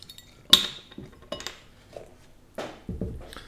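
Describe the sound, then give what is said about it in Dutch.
Glass clinks and clatter as a bottle of Leffe beer brewed in Brussels is opened. One sharp, bright clink is followed by several softer knocks and rattles, with no talk. “beginnen met een leffe. Gebrouwen in Brussel. Staat op de sticker. ik maak er een voor jullie open.”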